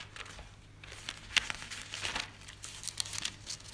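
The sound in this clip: Pages of a reference book being leafed through, with soft papery rustles and crinkles in several short bursts, heard alone without talk.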